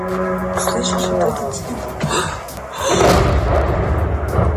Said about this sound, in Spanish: Así es como suena un dron ruso atacando una planta de energía ucraniana, y ocurre una y otra vez.